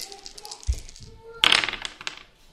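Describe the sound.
Dice are rolled for a physique check in a tabletop role-playing game: a dull thunk, then a short, bright clattering rattle, with people talking around it.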